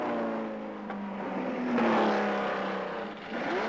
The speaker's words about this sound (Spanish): El Porsche número 20 ha entrado también en el box.